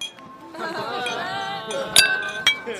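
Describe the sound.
Glasses clink together in a tavern toast, giving a couple of bright, ringing clinks near the end over a softer background of voices and tones.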